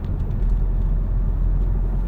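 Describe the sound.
Car driving through a series of roundabouts in road traffic, heard as a continuous low rumble and engine hum with no distinct events or voices.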